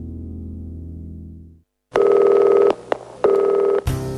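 Telephone tones: a steady low hum fades out and, after a short silence, loud ringing tones sound in two long bursts, then a brief burst of a different tone ends it.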